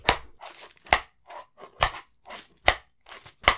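Many sharp clacks as Velcro-covered paddles are clicked together to imitate a giant fly pincer clacking, the hard dry bursts coming in an irregular series.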